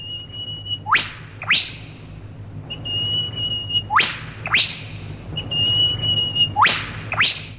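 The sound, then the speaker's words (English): A person imitating an eastern whipbird: three calls, each a sustained high whistle that sweeps sharply upward into a loud whip-crack, followed by a short answering note. “a group of laughing kookaburras, an eastern whip bird,”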